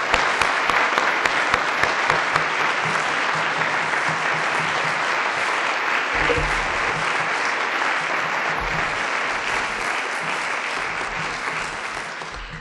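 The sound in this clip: An audience applauds to welcome a speaker at Northwest College. The clapping is dense and steady, sustained throughout and easing only slightly at the very end.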